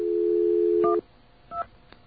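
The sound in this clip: Telephone tones: a steady dial tone cuts off, followed by a few short, separate keypad beeps.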